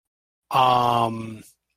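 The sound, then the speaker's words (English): A voice imitates a gasping howl with a single sustained, strained tone lasting about a second, then ends in a short breathy puff. “Lets out sort of a it's sort of a almost like a gasping sort of howl.”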